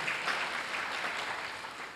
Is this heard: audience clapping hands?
yes